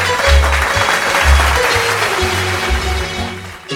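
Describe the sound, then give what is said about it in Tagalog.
Students in a class applaud themselves, producing loud, dense clapping that runs throughout, with rhythmic low thumps pulsing underneath. “Palakpakan ang inyong mga sarili.”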